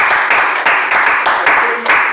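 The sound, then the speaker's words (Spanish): Loud clapping at a Spanish-language poetry gathering, a series of sharp, fairly regular bursts in an even rhythm that repeat several times across the stretch. “Un aplauso. Un aplauso.”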